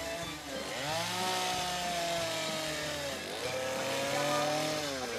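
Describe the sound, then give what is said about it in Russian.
A chainsaw carves a wooden log at an East Texas arts festival, its engine holding a steady, loud buzzing drone that dips in pitch around the middle and then climbs back as it revs, with no voices. “Вы все это выпилили этой штукой? Как ее? Бензопила. Бензопилой?”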